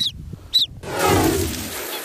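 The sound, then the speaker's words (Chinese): Swan cygnets under ten days old stir in wetland grass: two short, high peeps, then a soft, sustained rustling of grass. “拉格巴确认，这两只雏鸟正是天鹅幼崽。”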